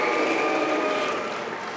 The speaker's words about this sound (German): Ein sichtlich angefasster Wolfram Weimer wird ausgebuht, als er ans Rednerpult tritt.